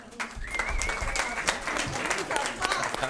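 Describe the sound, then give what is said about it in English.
An audience applauds the president with sustained clapping throughout, while voices and a rising cheer cut through the crowd noise. “Let's give a big hand to our”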